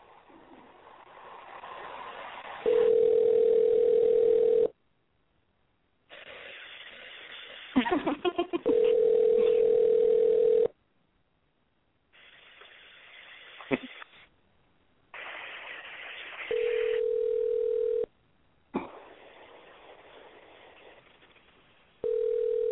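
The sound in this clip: Ringback tones from an unanswered telephone call that never reaches voicemail: a few long, steady, mid-pitched rings separated by pauses, with low background noise in the gaps.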